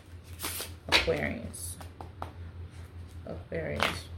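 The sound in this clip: Tarot cards for a love reading being shuffled in a few soft, papery riffling bursts, separated by quieter pauses.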